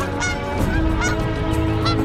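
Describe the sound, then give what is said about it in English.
Geese honking in a dense, continuous chorus, with many loud overlapping nasal honks and no clear pauses. “there are literally geese everywhere.”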